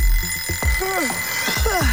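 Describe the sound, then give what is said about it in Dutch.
An alarm clock rings: a few sharp clicks open into warbling, chirping electronic tones that come in two bursts, fairly loud and alone. “Ja, de wekker kan vreed wezen.”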